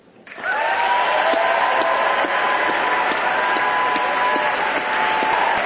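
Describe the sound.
An audience at the Sydney Goldstein Theater in San Francisco applauds to welcome a speaker, with dense, steady clapping that swells quickly and holds at an even, loud level for several seconds without letting up.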